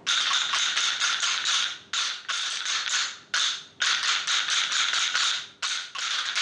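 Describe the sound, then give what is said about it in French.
Someone taps out the rhythm of a song: many crisp, bright taps in uneven groups, with short breaks between phrases and a fairly quiet, steady level throughout. “Si on pense la chanson et qu'on frappe sur le rythme, ça fait ça.”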